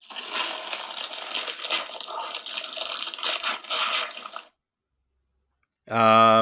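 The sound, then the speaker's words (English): Paper crinkles and tears as a present is unwrapped, a dense, crackly rustling lasting about four seconds, followed by silence and then a brief voice at the end. “Someone tearing up a contract in the rain? Close, unwrapping a present.”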